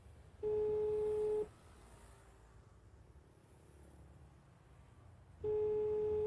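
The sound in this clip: Telephone ringback tone heard while a mother calls her son's phone: two steady, loud, one-second tone bursts separated by a long gap of faint hiss.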